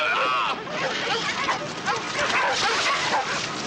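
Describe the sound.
Several dogs bark, yip and whimper in a continuous, loud, overlapping chorus that runs the whole time, with voices shouting over them.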